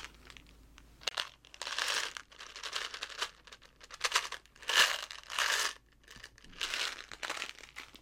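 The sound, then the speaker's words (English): Crinkling of small wrapped candies, sounding as many short, crisp rustling bursts separated by brief pauses, fairly faint and with no talking. “I got these little candies, and they make the coolest sound.”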